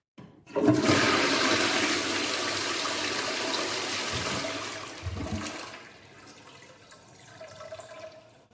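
Toilet flush with a loud, broad rush of running water lasting several seconds, then easing into a quieter trickle of refilling water with a faint steady hum beneath it.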